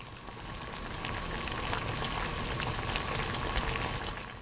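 Water boils in a cooking pot as mustard greens are blanched: a steady, fairly quiet bubbling hiss with scattered small pops throughout, with no voices.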